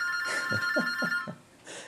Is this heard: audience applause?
no